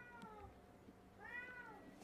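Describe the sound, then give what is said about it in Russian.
A cat that has just woken meows twice, softly, with a brief gap between the calls; the second meow is longer and slightly higher. “Котик проснулся. Котик.”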